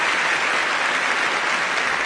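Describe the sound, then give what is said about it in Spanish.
Audience applauding at an awards ceremony as the winner's name is read out: dense, loud, even clapping that holds steady throughout with no break. “el auditorio rompió a aplaudir”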